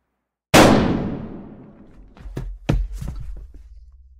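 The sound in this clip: A single gunshot fired in a cellar cracks out sharply and decays over about a second and a half, followed by a few dull thuds and knocks.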